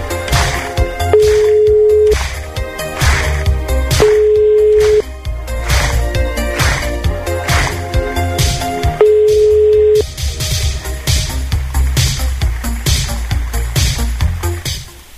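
Ringing tone of a telephone call placed to a relative, three steady one-second beeps spaced apart, heard over loud rhythmic background music.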